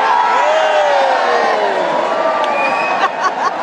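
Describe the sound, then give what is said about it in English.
A stadium audience cheers while doing a wave, a loud sustained roar of many voices with whoops and shouts, sharper cries rising near the end. “Oh, here comes the wave again. Here we go.”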